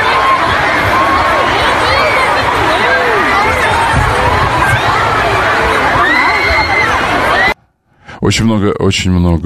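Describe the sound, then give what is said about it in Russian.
A stadium crowd roars with loud, dense cheering, shouting and high shrieks, including children's voices, that runs steadily and then cuts off abruptly, followed by a short burst of speech. “Это звуки стадиона.”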